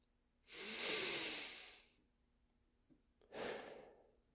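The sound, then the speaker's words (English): A deep breath during a meditation: a long, soft airy inhale swells and fades, then after a pause a shorter breathy exhale follows, quiet and alone. “Let's just start with a deep breath for this meditation.”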